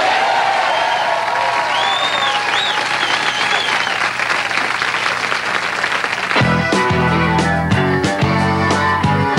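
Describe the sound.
An audience applauds and cheers to welcome a band making its network television debut, with dense, continuous clapping and a few whoops, before the band's music starts for the last three seconds.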